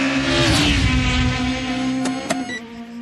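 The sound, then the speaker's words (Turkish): Roaring engine of a white taxi speeding at 306 km/h: a loud, sustained droning tone that slides slightly lower, with a couple of sharp clicks near the end. “Beyaz bir taksi. Saatte 306 kilometre ile gidiyor.”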